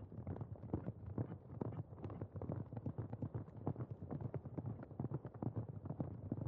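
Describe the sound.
Hoofbeats of riders galloping together on small, dwarfish mounts: many quick, rhythmic clip-clops in a steady, continuous stream, faint overall and unbroken by talk.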